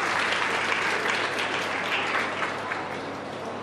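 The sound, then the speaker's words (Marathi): Audience applause at a family day gathering: dense, steady clapping from a crowd that holds evenly and eases slightly toward the end. “जोरदार टाळ्या वाजवून Vineet Kulkarni सरांसाठी please.”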